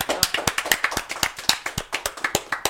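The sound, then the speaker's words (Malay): Audience hand clapping for a band member, many sharp claps in a fairly even, rhythmic pattern, steady and moderately loud throughout, with no voices over it. “tepuk sikit untuk Mio.”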